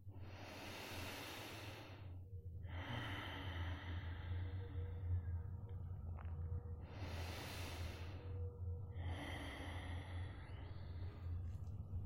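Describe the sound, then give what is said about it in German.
Deep breathing during a guided meditation: a few slow, breathy inhales and exhales with short pauses between them, over a low, steady drone. “So also nimm noch ein paar tiefe Atemzüge in dein Herz.”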